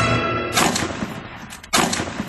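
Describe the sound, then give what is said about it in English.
Two gunshots fired at running game during a hunt: two sharp, loud blasts roughly a second apart, each with a short decaying tail and no voices. “two shots, two misses.”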